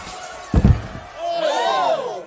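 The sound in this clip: A punch lands on a man and knocks him unconscious: one heavy, dull thud with a quick double impact, followed by a voice crying out.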